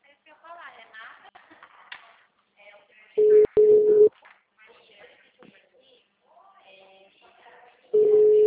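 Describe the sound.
Busy signal on a failing telephone call: short bursts of a steady, flat tone, a pair near the middle and another starting near the end, separated by stretches of quiet talk.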